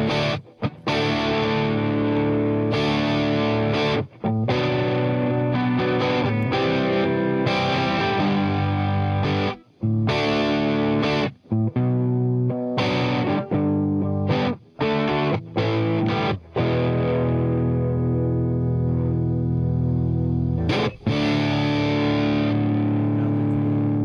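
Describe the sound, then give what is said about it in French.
An electric guitar played through an amplifier with the gain turned up and set to its 7-watt mode, giving thick, fuzzy distorted chords that ring out continuously and loudly for over twenty seconds, broken only by a few brief gaps. “De gain sur l'ampli. Gain. Ah, mais tu peux jouer en 15 watts ? Ah, ça marche pas en 15 watts. Ah, si, 7 watts.”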